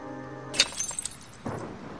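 A glass of milk falls off a kitchen counter and shatters with a sharp, bright crash, followed by scattered tinkling of fragments and then a second, softer clatter.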